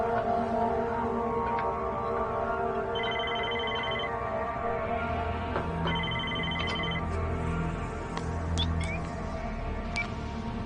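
A telephone rings in two separate electronic bursts, each lasting about a second, over a steady tonal background.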